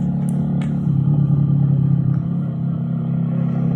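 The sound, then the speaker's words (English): Motorcycle riding with kids along: a steady, low engine drone that holds an even level throughout, with a few faint clicks above it. “Whee! Is this cool or what? Kids like it. Kids love the motorcycles.”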